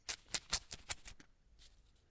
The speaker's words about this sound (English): Let's open the envelope.